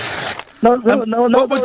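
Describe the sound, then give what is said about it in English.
A brief, raspy tearing burst of a paper check being ripped up, followed at once by someone speaking. “I'll rip the check up now”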